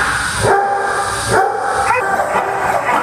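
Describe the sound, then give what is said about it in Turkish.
Dogs bark at a pet hotel in China, loud, sharp barks coming in a few bursts with yips that overlap and repeat over a noisy background. “Çin'de Shangdu'daki bir evcil hayvan otelinde onlarca köpek serin odalarda konaklıyor.”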